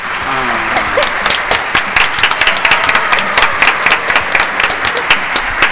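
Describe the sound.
A small group claps in an uneven patter of many sharp, separate hand claps to applaud a community project, with voices speaking at the start.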